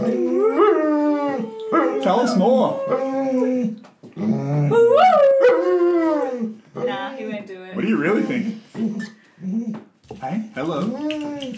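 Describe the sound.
A dog howls in long, wavering, gliding tones, joined by human voices howling along in imitation, the calls overlapping in a loud, continuous chorus with brief pauses.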